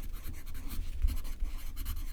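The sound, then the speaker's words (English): Handwriting on paper: soft, continuous scratchy strokes of a writing tool as a closing thought is put down in print. The strokes are faint and steady. “Let me put a closing thought down in print.”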